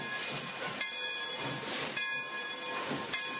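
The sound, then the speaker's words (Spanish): A train pulls into the station at Asunción with a continuous loud hiss and rumble, like steam. Faint steady tones run through the noise, which swells slightly now and then. No voices are heard. “En esas cavilaciones estaba cuando el tren empezó a entrar en la estación de Asunción.”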